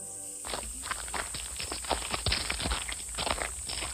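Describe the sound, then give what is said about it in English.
A farmer's footsteps as he walks merrily: many steady, even steps, moderately quiet, with a thin high whine running underneath. “He walked merrily, thinking about what all he could do.”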